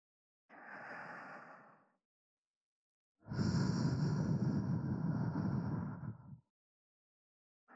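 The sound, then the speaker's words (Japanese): Soft breathy blowing into a listener's ear, heard as two airy whooshes with no talk: a gentle puff of about a second and a half, then a longer, fuller steady breath lasting around three seconds. “念のためにお耳ふうってするね。”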